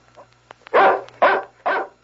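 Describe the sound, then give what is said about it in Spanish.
A dog barks on a ranch: three loud, evenly spaced harsh barks after a few faint soft sounds, over a low steady hum. “¿A quién le ladra el perro?”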